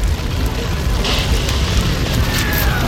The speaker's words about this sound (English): Fire explodes across the ceiling. It travels with astounding speed.